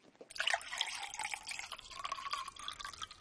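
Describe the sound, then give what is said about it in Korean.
Someone drinking water: wet dripping and trickling liquid sounds that run steadily for about three seconds with no talk. “이거 그거 그 물을 마시는 건데.”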